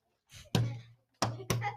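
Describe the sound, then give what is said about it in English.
A hand smacks a tabletop to buzz in at the start of a quiz round, giving three sharp, hollow thumps, the last two close together, after a softer brushing sound. “You can buzz in by hitting the table when the round starts.”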